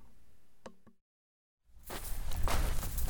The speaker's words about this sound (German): Die Kinder gehen weiter.